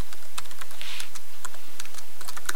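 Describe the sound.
Quick, irregular clicking of computer keys as a project name is typed on a keyboard, with many crisp taps in close succession and no talk over them.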